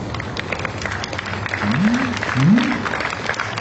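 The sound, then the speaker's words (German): Audience applause at a political gathering in Leipzig, a moderate, steady patter that swells slightly midway, with two brief rising calls cutting through the clapping. “Schon mal ein ganz netter Applaus.”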